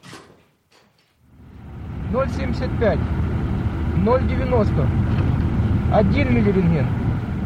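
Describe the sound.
A vehicle driving the two-mile road from Pripyat to the Chernobyl nuclear plant sets up a steady engine rumble that starts after a second and continues under muffled voices.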